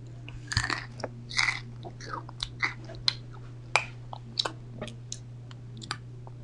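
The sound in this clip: Crackers are crunched and chewed up close in a series of many sharp, irregular crisp bites and crackles over a low steady hum, with no voice.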